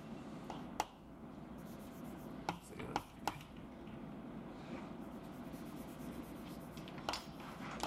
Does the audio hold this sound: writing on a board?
yes